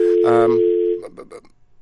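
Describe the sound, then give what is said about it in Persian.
A steady electronic telephone tone sounds after a dropped call to a guest and holds for about a second. It then cuts off into a few brief, choppy voice fragments that fade out. “بله بله آواز مرا دارین آقای راهی؟ فکر میکنم که تماس ما با آقای راهی قطع شده.”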